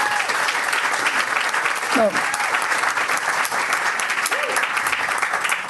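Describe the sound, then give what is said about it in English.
An audience applauds with sustained, even clapping from many hands, loud and unbroken for nearly six seconds. A voice briefly cuts through the clapping. “you should have said no applause, but you had to applaud”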